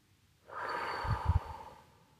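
A person draws a long, deep breath in, a rushing airy inhale lasting over a second, with a few soft low rumbles partway through before it tapers away.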